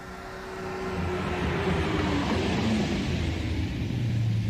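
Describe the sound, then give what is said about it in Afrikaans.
A sports car speeding, a loud, steady engine roar with deep road rumble that swells during the first second and then holds evenly to the end. “Jaag jy altyd so? Wat bedoel jy? Dis mos 'n sportskar.”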